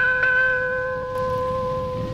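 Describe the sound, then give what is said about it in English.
Two struck bell chimes, the interval signal of a UK pop radio station, each ringing on in long sustained tones that overlap and slowly decay. “It's 53 years now since the Caroline Bell rang for the first time and UK pop radio began at last.”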